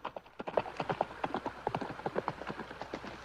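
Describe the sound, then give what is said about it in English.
A horse gallops back down a mountain pass in a Western drama, its hooves pounding out many rapid, rhythmic clip-clops that stay steady and fairly loud throughout. “The rider gallops back down the pass.”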